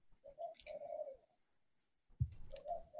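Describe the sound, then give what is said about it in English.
An owl calling outside in the middle of the day: a few low, soft hooting notes, a short pause, then a brief thump followed by another hoot. “No, there's a fucking owl outside. It's the middle of the day.”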